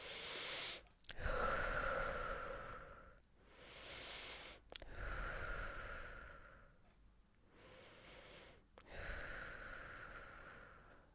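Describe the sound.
Slow, relaxed breathing in and out during a relaxation exercise, with inhales and exhales of equal length. About three soft, airy cycles of long breaths pass with brief quiet gaps between them.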